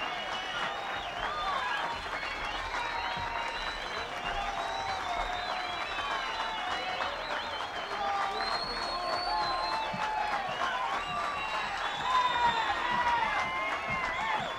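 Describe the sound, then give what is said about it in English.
Sustained audience applause at a bluegrass concert, a steady dense wash of clapping that holds at an even level throughout. “You're the kind of audience that I like to play to and love, and I'm glad that you have given us a nice hand here today.”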